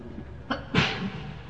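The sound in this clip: A single loud, sharp sneeze interrupts a religious lesson on jurisprudence. A brief inhaled catch comes just before the main burst, and quiet steady background noise follows it.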